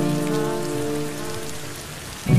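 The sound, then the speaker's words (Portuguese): Steady rain falling, a dense hiss and patter over a sustained low humming tone, closing with a brief louder burst at the very end. “A chuva sumiu e fiquei molhado.”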